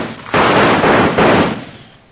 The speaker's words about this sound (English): somebody shot the lantern out